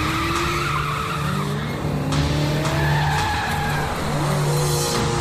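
Tires squeal and an engine roars as a black foreign-made car without license plates speeds along, a loud, continuous rush of skidding with shifting engine tones throughout.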